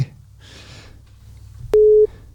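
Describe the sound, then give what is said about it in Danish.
A telephone call signal: one brief, steady, mid-pitched electronic beep that starts and stops abruptly, preceded by faint hissing line noise. “Ja, jeg ringer op til Bært nu.”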